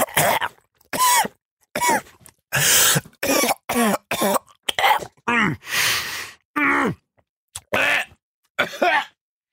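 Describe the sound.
Someone coughs in a long series of harsh, loud hacking bursts and throat clearing, trying to clear a chocolate digestive biscuit stuck in the throat, with short pauses between fits.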